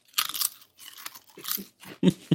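Crunching of pizza-flavored chips: a run of crisp, sharp crunches and chewing bites in uneven bursts, loud and close, with the last few crunches the strongest, and no talking.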